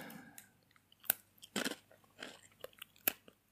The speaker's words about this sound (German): Kannst du mal bitte eine Salzstange essen für mich? Zeig mir mal, wie du Salzstangen isst.